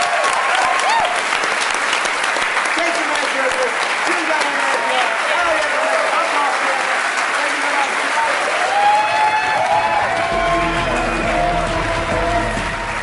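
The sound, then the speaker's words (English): Live audience applause at the close of a comedy show: loud, dense clapping with cheers that keeps going for many seconds without a break. “Well, thank you guys so much for coming. You were a great audience. Give yourselves a hand.”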